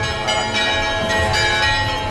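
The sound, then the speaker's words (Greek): Church bells pealing joyfully at the church of the Virgin on Tinos during a festive pilgrimage day, a loud, dense, continuous ringing of overlapping sustained tones with no pauses. “οι καμπάνες χτυπούν χαρμόσυνα”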